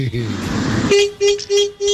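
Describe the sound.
A car horn honks four times in quick, short blasts, loud and clear, right after a burst of talk.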